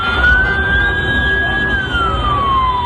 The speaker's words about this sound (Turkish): Siren sesini duyan genç adam hareket halindeki araçların önüne atlayıp koşmaya başladı. Sürücüleri uyararak ambulansa adeta acil durum koridoru açtı.